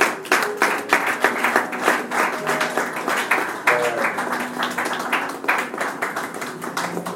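Congregation at a church wedding applauding the bride and groom, with dense, steady clapping that continues at an even, fairly loud level throughout.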